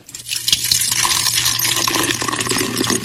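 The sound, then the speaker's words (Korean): Beer pours into a feeding tube with a steady, splashing gurgle of liquid. The sound runs continuously for a few seconds at an even level, with light bright spattering and no talk. “지금 뭐 하는 거니, 버렸어? 맥주 마셔요. 그런데 왜 위장관 튜브를 쓰는 거냐?”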